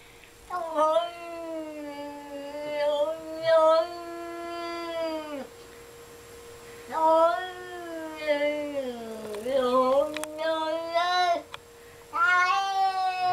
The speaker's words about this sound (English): That was a dog, right? No, that was a cat. Oh. Cats make weird sounds, man. Cats are weird.